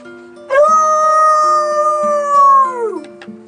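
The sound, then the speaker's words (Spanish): A neighbour's loose dog howls in one long, loud, tonal note that holds steady for a few seconds, then slides downward in pitch as it fades. “Otra vez se soltó el perro del vecino. ¡Qué bien! Siempre se parece, me asusta, si yo me creo que es un lobo.”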